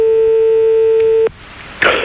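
A telephone line tone plays as a call is placed to a stranger for a phone-in game. The steady, loud electronic tone holds, then cuts off abruptly. A brief hush follows, then a short burst of noise.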